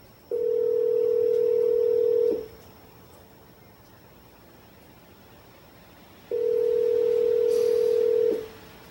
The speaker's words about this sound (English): It's ringing? It does ring a few times.